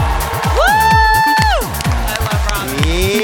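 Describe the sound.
Audience cheering and applause greet a comedian coming on stage at a roast battle comedy show. The crowd noise is loud and continuous over a steady, thumping music beat.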